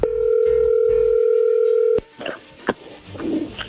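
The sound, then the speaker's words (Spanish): A telephone call connecting: a steady, loud telephone tone holds for about two seconds, then cuts off with a sharp click into crackly, uneven line noise. “allí entró la llamada, no hagan ruido”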